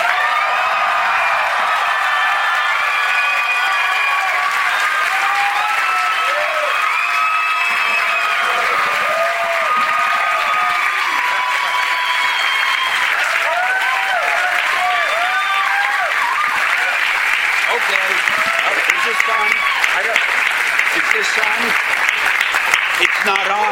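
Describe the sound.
Loud, sustained audience applause welcoming Stan Lee on stage in Toronto, a dense wash of clapping mixed with cheering and crowd voices that carries on unbroken for over twenty seconds.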